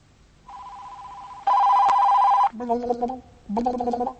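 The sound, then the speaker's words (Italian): Telephone signal tones during a call transfer: a steady mid-pitched tone, then a louder one, followed by two shorter, lower buzzing tones with a short gap between them. “Sento in lontananza questi segnali. Sembra che sia un trasferimento di chiamata”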